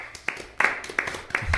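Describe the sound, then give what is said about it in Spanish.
Scattered hand claps from a small group celebrating a beer taster passing his exam: a handful of uneven, fairly faint claps over under two seconds. “El aplauso es porque decir, rindió el examen, va a salir todo bien.”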